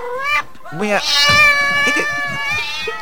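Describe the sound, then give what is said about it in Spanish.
A cat howls while being moved through a fish tank, giving long, wavering, high-pitched yowls that bend in pitch, with a brief pause early on before a new cry rises and carries on to the end. “Pero, bueno, el gato aúlla un poco, pero no importa.”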